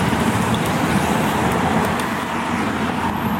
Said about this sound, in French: On arrive en bord de Loire. Ça roule plus vite.